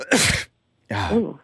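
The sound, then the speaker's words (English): Two short, explosive coughs come from a person with allergies while fondant is being put on a cake. A brief silence separates them, and the second is more voiced and tonal. “You're putting fondant on my cake and you're coughing on it right now?”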